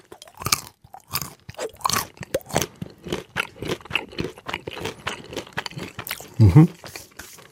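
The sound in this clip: Nuts crunched and chewed in a steady run of crisp, irregular crackling bites across about seven seconds, with one louder, heavier crunch near the end.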